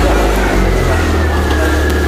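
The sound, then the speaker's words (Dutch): A car engine gives a loud, steady, low rumble with a faint thin whine above it, running continuously with no voices. “Autogeluid.”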